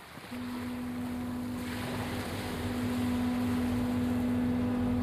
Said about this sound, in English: Kaumātua Enokart Rolleston lives on Matakana Island, so I take the 25-minute barge ride from Omokoroa to go and visit him.